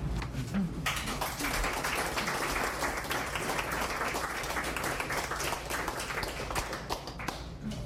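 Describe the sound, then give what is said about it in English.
Audience applause after a poetry reading, a dense, steady wash of many hands clapping that carries on at an even loudness for the whole stretch, with no voices. “let's give Vicky another hand”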